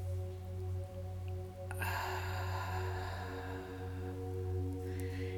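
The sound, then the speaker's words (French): During a gentle yoga and meditation session, a slow breath is drawn in through the nose and let out through the mouth as a soft, airy hiss that starts after a quiet moment, over a faint, steady low hum. “Inspirez par le nez.”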